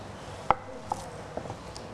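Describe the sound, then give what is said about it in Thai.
A knife finely slices tightly rolled kaffir lime and culantro leaves, giving a few sparse, crisp taps that are faint and separated by short pauses. “ม้วนให้แน่นนะคะแล้วก็ซอยให้ละเอียดลงเล็กเราจะมีใบมะกรูดซอยแล้วก็จะมีผักชีฝรั่งนะคะซอย”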